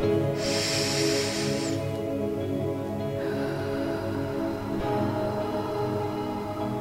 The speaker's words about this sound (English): So breathe in again.